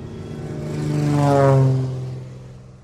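Propeller airplane taking off, a small plane flown by a pilot in Kenya, its engine a droning, harmonic tone that swells steadily to a loud peak midway and then eases off, with no voices.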